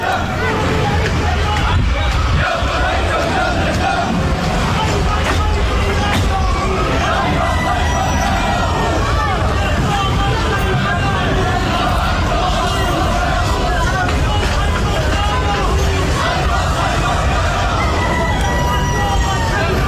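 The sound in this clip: Crowd chanting and shouting at a funeral for a militant leader: a loud, dense, unbroken mass of voices that fills the whole stretch without pause.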